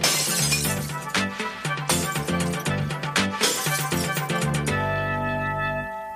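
Glass bottles are smashed for recycling: several loud shattering crashes in quick succession, then ringing fragments that fade out.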